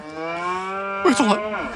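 A cow on a farm, one of a herd struck by a toxic yellow fog, lets out a long, steady, drawn-out moo of almost two seconds. It breaks into a louder, rougher wavering stretch near the end, with no talk over it.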